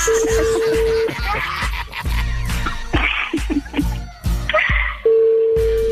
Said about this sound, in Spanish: dame la oportunidad de marcarle, unir la llamada y a ver si contesta.